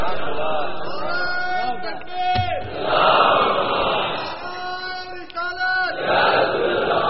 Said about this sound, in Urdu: ابھی پلیز نعرے مت لگانا